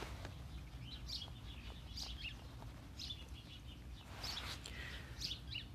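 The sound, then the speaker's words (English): Birds chirp in a backyard kept as a family bird sanctuary. Several short, high chirps and calls come and go, fairly faint, over a steady low background rumble. “here at our family bird sanctuary we have for a yard, the birds are doing fine. You can probably hear them in the background”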